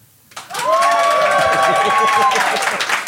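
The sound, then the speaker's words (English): Applause from a live studio audience voting on cue, rising after a brief quiet start into a steady, dense wash of clapping that holds for almost three seconds. “I would like you to applaud now.”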